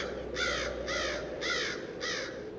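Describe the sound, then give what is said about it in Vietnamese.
Crows cawing as they take flight from tree branches above reed grass, startled by a man walking through: four harsh, evenly spaced caws over a low, steady background rumble. “Lũ quạ đậu trên cành cây, thấy người đàn ông lầm lũi bước đi, làm rung chuyển một vùng cỏ lau, thì sợ hãi đập cánh bay vút lên cao, cất lên những tiếng quang quát trợn người.”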